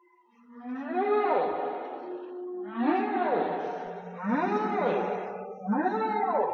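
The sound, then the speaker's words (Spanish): Whale song: four long, loud moaning calls, each with harmonic tones that arch up and then fall, over a steady low hum, with short gaps between the phrases. “lo que están escuchando es el canto de las ballenas”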